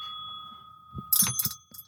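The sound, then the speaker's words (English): A small bell being undone, first a thin sustained ring, then a quick burst of metallic clicks and rattles as it is handled, with no talk. “I'm trying to undo the bell.”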